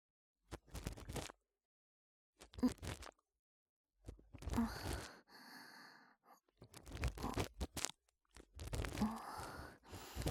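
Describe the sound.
Scraping and crunching sounds of earwax being cleaned from the shallow part of an ear come in several short bursts separated by silences, with no talking.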